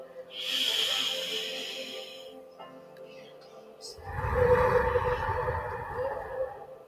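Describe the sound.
A slow exhale blown out through the mouth during a guided prayer breathing exercise: a soft, airy hiss of about two seconds, followed after a pause by a louder, lower breathy rush.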